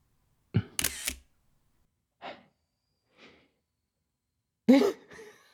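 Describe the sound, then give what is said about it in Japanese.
A camera shutter clicks while taking a wedding photo, a sharp mechanical burst in near silence, followed by a few faint, breathy sounds. “じゃあ、結婚式の記念に一枚。カメラ見て笑って。”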